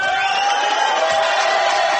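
Audience clapping and cheering, a dense, unbroken roar of crowd noise with scattered whoops, holding an even, loud level from start to finish.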